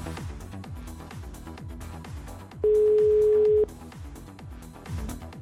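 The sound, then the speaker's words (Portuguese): Ringing tone on an outgoing phone call: one steady, mid-pitched beep lasting about a second, set against rhythmic background music, with no talking. “Vamos ver se vai chamar. Estamos ligando. Tá chamando. Tá chamando.”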